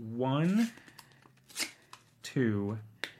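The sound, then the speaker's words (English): A paper playing card, the four of spades, is ripped into pieces: a few sharp tearing bursts are separated by pauses and mixed with brief vocal sounds. “Take the four of spades. I'm going to destroy it. Watch this. I'm going to take that card and I'm going to rip it into”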